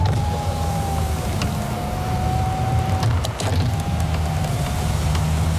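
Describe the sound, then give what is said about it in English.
Car power windows whir as the electric motor runs in two long strokes with a thump between them, a thin steady whine over a constant low car hum. “Oh, can you please just stop playing with the windows?”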